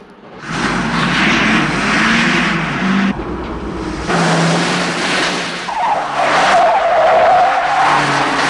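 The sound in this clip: Tyres skid as police squad cars spin off the road during a car chase. Loud, sustained screeching mixes with roaring engines, with a brief dip just past three seconds and a sharper squeal later on.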